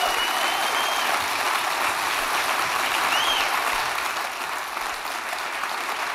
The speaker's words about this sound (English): So give them a hand, everybody.